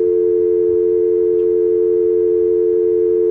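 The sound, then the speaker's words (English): A telephone busy signal sounds as a loud, low, pure tone that holds without a break for the whole stretch, with no voices over it. “Now we have a busy signal. No. Now I have a big busy signal.”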